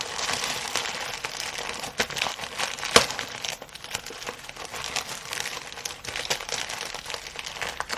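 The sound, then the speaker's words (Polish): Plastic foil packaging is unwrapped and torn open, giving many soft, continuous crinkles with one sharp, louder snap partway through. “No i teraz już mogę rozpakować zawartość. Jest to zapakowane w taką folię.”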